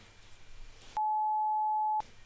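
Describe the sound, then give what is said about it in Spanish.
Phone signalling an incoming call with a single steady electronic beep about one second long, a pure, even mid-pitched tone set against faint background noise. “Me están llamando. Espérate, que mi mamá me está llamando.”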